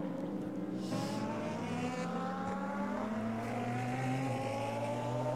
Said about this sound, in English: How can a Turbo 4 sound so good? Formula One makes it sound awful.